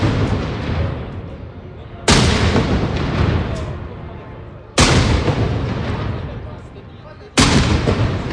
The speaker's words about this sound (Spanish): Son las salvas de honor de recepción del Papa en el Palacio Real, en la Plaza de la Armería. Impresionante.